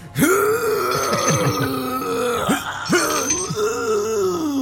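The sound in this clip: A voice imitates strained groaning and grunting against the wind while working a winch aboard a ship. It is one loud, continuous vocal stretch of about four seconds, with wavering, straining pitch and a couple of brief catches.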